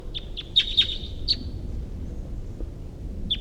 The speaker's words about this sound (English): Right in the direction of the wild bird here.